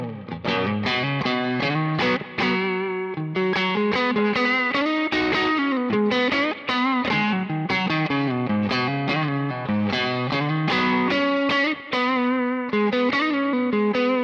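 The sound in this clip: Distorted electric guitar played through an amp with a Gold Alnico speaker, giving a greenback-type tone. Chords and riffs ring out loud and continuous, with only a few brief breaks.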